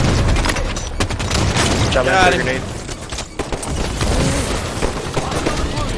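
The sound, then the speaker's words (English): Gunfire in a video game, including sniper rifle fire, comes as many sharp cracks and bursts scattered throughout, loud, with a voice talking over part of it. “somebody's shooting at me with a snipe.”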